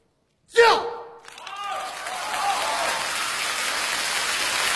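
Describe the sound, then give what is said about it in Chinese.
Audience applause after a traditional storytelling performance: a brief vocal sound at the start, then a dense, steady wash of clapping that holds evenly to the end. “知道观众那个掌声什么意思吗？ 什么意思呀？ 真卖力气啊！”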